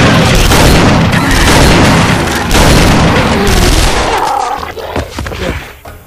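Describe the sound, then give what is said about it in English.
Loud, booming blast of a 12-gauge rapid-fire shotgun pistol: a dense, roaring burst that holds for several seconds, then thins and fades away toward the end. “Rock whipped out his 12-gauge rapid-fire shotgun pistol. You wanna... Rock dropped to the ground. The second he could see sky, Rock rolled over onto his stomach and without sighting, pulled the trigger.”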